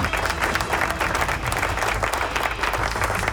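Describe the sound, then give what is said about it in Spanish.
Applause sound effect of a large crowd clapping: dense, steady and loud throughout, a continuous wash of rapid claps without breaks or swells. “¡Aplauso!”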